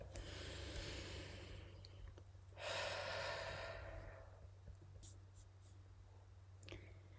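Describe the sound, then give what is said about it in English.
A slow, deep breath is drawn in through the nose and let out through the mouth during a guided mindfulness relaxation. A soft airy intake gives way to a louder, longer whooshing exhale over a low steady hum. “take a big deep breath in through your nose and out through your mouth”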